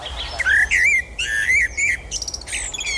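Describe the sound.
A Eurasian blackbird sings loud, fluty whistled phrases that wander up and down in pitch, mixed with higher squeaky twittering notes against a faint background hiss.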